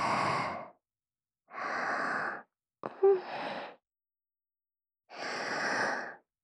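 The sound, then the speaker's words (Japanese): Slow, deep breathing in and out: four long, airy breaths with quiet pauses between them. The third begins with a brief sharp click. “吐いて、吸って、吐いて、”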